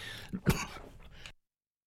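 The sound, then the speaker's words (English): Throat clearing from a radio host between announcements: one short rough catch, then a stronger guttural burst that trails into a fading rasp, heard alone with no talk. “Sorry about that, something got stuck in my throat.”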